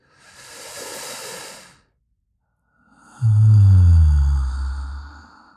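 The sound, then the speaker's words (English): A deep breath taken during a guided calming exercise: a soft hissing inhale, a short silence, then a louder, longer exhale with a voiced, sighing edge, alone. “So you're going to make your decision as we take this breath.”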